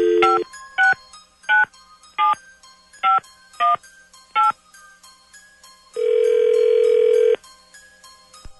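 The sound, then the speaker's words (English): Telephone dialing tones as a number is keyed in: seven short, evenly spaced beeps of varying pitch, then a single longer, louder tone, with no voices. “let's find out. Dialing at random.”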